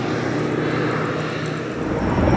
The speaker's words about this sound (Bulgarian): Часове наред самолети и хеликоптери не спираха да кръжат, за да обливат с вода тлеещата гора.